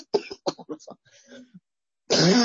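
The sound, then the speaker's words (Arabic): A single harsh cough bursts out loudly at the end, during a spoken religious lesson. It follows a run of short, clipped vocal sounds and comes after a brief pause. “يا جماعة درسكم مش عارفة بيشد عليه الكحة”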